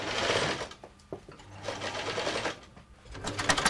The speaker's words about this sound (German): Außenkanten säumen, Innenbänder einsetzen und Borten annähen.